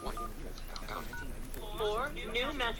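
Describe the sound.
Phone keypad tones enter a voicemail password, a few short beeps partly buried under people talking and laughing.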